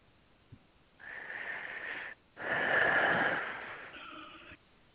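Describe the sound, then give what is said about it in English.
A slow, deep human breath during a guided breathing exercise: a soft, breathy rush lasting about a second, a brief pause, then a longer and louder airy exhale that fades out, heard alone with no talking. “Good breath.”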